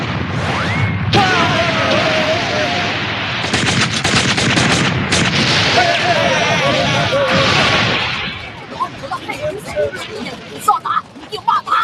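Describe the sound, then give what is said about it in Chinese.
Rapid gunfire in a 1987 Cantonese-dubbed cartoon: a loud, sustained rattling volley of many shots, with voices shouting over it, giving way to scattered bangs and clatter. “开火！”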